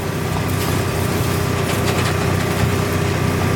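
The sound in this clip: A car engine runs steadily during a driving lesson on a hill as the learner presses the accelerator. It is a continuous, moderately loud humming drone with even harmonics and no clear change in pitch.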